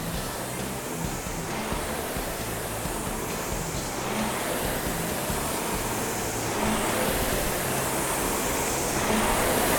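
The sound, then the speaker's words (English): A RowErg rowing machine's air flywheel spins with a continuous whooshing rush, surging faintly in a regular rhythm of strokes every couple of seconds and growing slightly louder toward the end. “you're making that flywheel spin a little faster”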